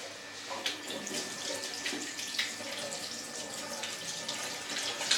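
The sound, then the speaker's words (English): Water runs from a tap while hands are washed after kneading samosa dough, a steady splashing hiss broken by irregular louder splashes throughout, with a faint high steady tone beneath. “So, we can wash our hands now.”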